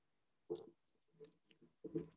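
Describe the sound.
Someone chews a bagel right up against the microphone: a few soft, crunchy bites and chews come in short separate bursts with quiet gaps between them.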